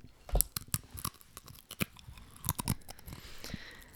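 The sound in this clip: Crunchy snack being chewed: many crisp, irregular bites and crunches, fairly faint and uneven in rhythm, with no talking.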